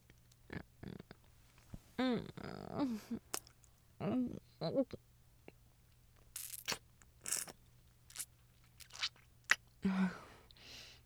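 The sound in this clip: Crunching and chewing of food, heard as a series of sharp, irregular crunches and wet chews, with brief voiced murmurs between some of the bites.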